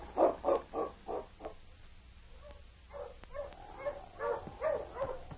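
Huskies of a sled dog team bark and yelp in faint bursts: a rapid run of barks, a short lull, then looser yips and whines.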